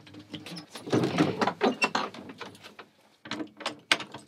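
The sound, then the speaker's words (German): A padlock being awkwardly unlocked, with uneven bursts of metallic clicking and rattling, a short quiet gap partway through, then more fumbling clicks. “Der nach eigenen Angaben letzte Leprechaun-Flüsterer Irlands schließt umständlich das Vorhängeschloss auf”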